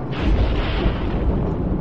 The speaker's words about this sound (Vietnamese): Đó là tiếng sấm.